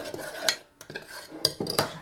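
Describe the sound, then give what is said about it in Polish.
A spoon works a mixture into a smooth, uniform mass in a kitchen. Short metallic clinks and scrapes against the bowl come in a loose, irregular rhythm, several of them, with no talk. “I też takimi drobnymi ruchami rozprowadzam sobie całość na jednolitą masę.”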